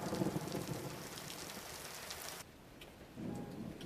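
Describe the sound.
Rain falls on a parked car as a dense, steady hiss with low rumbling. The hiss drops off abruptly near the end, then returns more softly.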